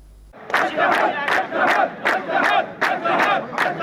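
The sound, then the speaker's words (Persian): Hundreds of Haft Tappeh sugarcane company workers protest on strike, their crowd voices rising in loud, rhythmic bursts of chanted shouting that repeat at a steady pace throughout. “این صدای اعتراض صدها تن از کارگران شرکت نیشکر هفت‌تپه است.”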